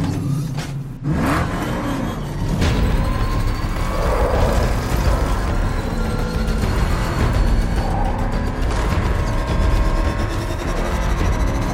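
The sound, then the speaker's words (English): A powerful car races through city streets with a loud, continuous engine roar and whirring drive noise, sustained at full intensity with only a brief dip near the start. “Seconds later, Batman is racing across the streets of Gotham City in the Batmobile towards Red Robin's location.”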